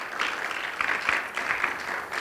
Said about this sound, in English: Let's give Jesus Christ another hand clap of praise this evening, church.